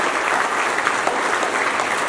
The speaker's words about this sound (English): Give him one more big hand clap of praise.